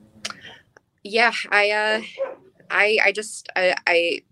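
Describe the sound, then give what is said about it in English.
Several dogs bark repeatedly in short, sharp bursts, overlapping with a person talking. “I'm sure you hear my dogs going”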